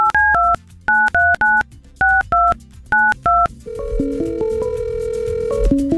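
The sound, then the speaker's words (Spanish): A telephone number is dialed on a touch-tone keypad: a quick run of short, crisp dual-tone beeps in uneven groups, each beep distinct and loud, and a sustained tonal sound takes over afterward. “Te voy a marcar, contéstame.”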